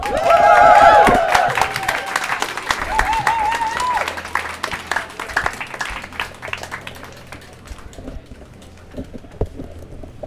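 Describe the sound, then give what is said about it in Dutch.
Warm applause from an open-stage crowd at a Pride walk. Loud cheers and whoops stand out over the clapping in the first few seconds, then the clapping turns scattered and gradually fades toward the end. “Maar hierbij een warm applaus voor Kim!”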